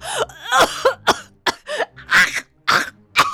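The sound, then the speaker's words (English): A human voice imitates a terrified fox gagging and coughing after being sprayed in the eyes and mouth. It makes a rapid series of harsh, strained retching coughs and rough throaty bursts separated by short gaps. “The terrified fox ran from the playground, gagging as she swiped at her eyes and mouth.”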